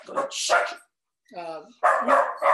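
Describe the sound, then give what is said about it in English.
A puppy barks once between stretches of people talking. It is a single short, high, tonal yelp with a whiny edge, clearly separate from the voices before and after it. “we got puppies. We got a brand new puppy.”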